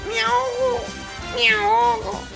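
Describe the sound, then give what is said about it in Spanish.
Meowing from a cat that has fallen into a lake, two drawn-out, wavering meows with a short pause between them, fairly loud and high-pitched. “parece que al lago se cayó un gato ahí, pobrecito. Ay, no. Y el gatito.”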